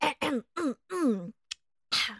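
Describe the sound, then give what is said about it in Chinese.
A voice performer imitates throat clearing as the flying monkey king: a run of short, voiced harrumphs and grunts, gruff and fairly quiet, separated by brief pauses. “于是，飞天猴王清清喉咙，”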